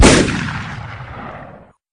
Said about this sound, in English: Have a shotgun blast to the face.